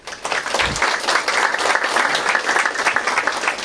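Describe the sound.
Applause from an audience in a hall, honoring the winner of a photography contest: many dense, steady claps that carry evenly through the whole stretch without pausing.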